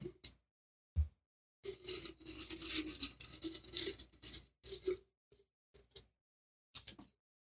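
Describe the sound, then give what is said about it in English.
A slip of paper is drawn to pick a topic: soft papery rustling and scratching for a few seconds, then a few brief faint clicks and taps. The sounds are quiet. “All right, let's draw our next topic.”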